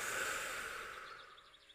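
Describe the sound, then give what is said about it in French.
A deep, slow breath during a guided meditation, soft and airy, with a long breathy exhale that gradually fades away. “Alors on commence par une grande inspiration par le nez. Et on va expirer par la bouche et relâcher tout ce qui nous est inutile.”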